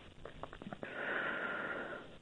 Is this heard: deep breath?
yes